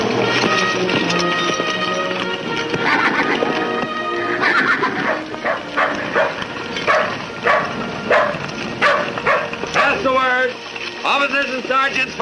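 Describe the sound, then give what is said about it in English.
A jet-black horse whinnies as it rears up in rugged country. The shrill, wavering neigh comes near the end, amid dense, busy layered sound. “The bugler stops beside him, his jet-black horse rearing up.”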